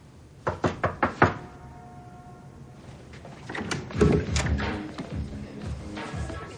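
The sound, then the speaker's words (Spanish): Knocking on a house door: five quick, sharp raps in a tight rhythm, followed after a pause by softer clatter and movement sounds. “llama a la puerta”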